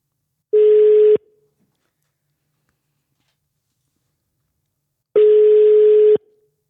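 Outgoing telephone call tone while placing a call: two steady, mid-pitched beeps, each about one second long, separated by roughly four seconds of silence.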